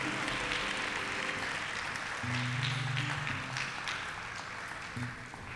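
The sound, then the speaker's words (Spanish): Strong applause for the Lord in a church service: a sustained crackle of many people clapping, with low tonal sounds rising briefly midway and the clapping thinning slightly toward the close. “Denle un aplauso fuerte al Señor.”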